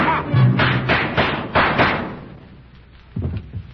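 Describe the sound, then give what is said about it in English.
Gunshot sound effects punctuate a radio drama set on a plantation at night, a few heavy, muffled, dull thuds in quick succession with a thin, band-limited old-recording tone, then one weaker thud after a short pause. “Miss Crosby, I hear some shot. It sounds like...”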